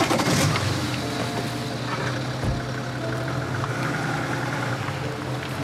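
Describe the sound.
A car driving away, its engine giving a steady low-to-mid hum throughout, with a single brief thump near the middle and no talking.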